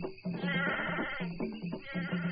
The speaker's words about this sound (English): Bring up the goat, men.